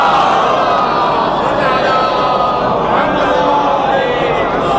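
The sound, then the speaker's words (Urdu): A large crowd at a religious gathering chants back in unison in response to the Nara-e-Haidari call, a loud, sustained roar of many voices that holds steady without a break. “نعرہ حیدری, درود بھیجے محمد وآل محمد پہ.”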